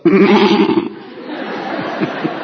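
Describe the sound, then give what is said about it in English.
A human voice imitates a sheep's bleat: one loud, quavering bleat lasting just under a second, followed by quieter, noisy sound with a few faint blips. “when a wolf comes up to a sheep, here is the only defense mechanism that a sheep has. It goes,”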